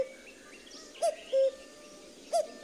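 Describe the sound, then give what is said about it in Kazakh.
A grey cuckoo calls in a green summer forest: three clear, mellow whistled notes stand out above a quiet background, with softer, higher chirps of other birds early on. “Қанаттарын салбыратып жіберіп, сұрша көкек қақылдай.”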